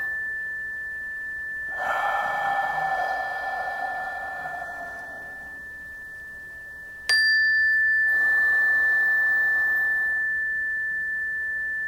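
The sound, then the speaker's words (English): Deep cleansing breaths: two long, slow, airy breaths, the first fading gradually, over a faint steady high tone, with a bright chime sounding between them. “Exhale 2, 3, 4, 5, 6. So three deep cleansing breaths.”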